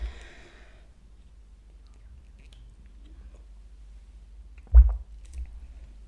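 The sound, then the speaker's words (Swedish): A person takes a small sip of a drink: one brief, wet mouth sound against near silence, followed by a fainter second mouth noise. “jag ska bara dricka lite grann.”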